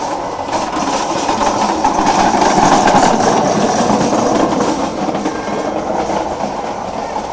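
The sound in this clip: An amusement ride cart passes along its track with a loud, continuous rumbling clatter that swells slightly midway and then holds steady.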